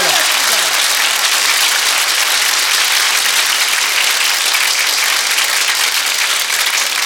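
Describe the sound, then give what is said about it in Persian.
Dense audience clapping at a religious celebration, a loud, continuous wash of many hands applauding at an even level, with voices blended into the noise. “دست بزن، همه دست بزنن.”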